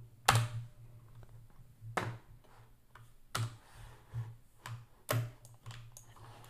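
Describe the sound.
Someone types a chat message on a computer keyboard: faint, sparse, sharp key clicks, a handful of louder strikes spaced irregularly over quiet background.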